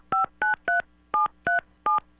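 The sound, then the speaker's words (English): A telephone is dialed on air in a radio studio, giving six short touch-tone beeps in an uneven rhythm. Each beep is a clear, even double tone, with quiet gaps between them and no talk. “since I'm flying solo today, we got to dial the phone on the air here.”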